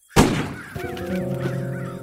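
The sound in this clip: Harsh bird calls, given as a crow cawing, ring out repeatedly after a sharp, loud burst at the start, with a sustained tonal hum underneath.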